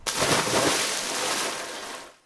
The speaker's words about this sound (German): Sprung ins Wasser.